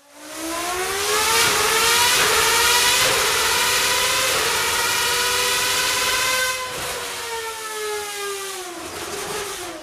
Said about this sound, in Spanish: Este era un B-10 a 67 grados con 750 caballos de fuerza a 14.300 revoluciones por minuto